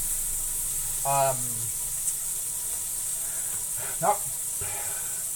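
Seasoned burgers sizzle in a pan with a grooved bottom, a steady bright hiss of frying throughout, broken by a couple of brief louder bursts.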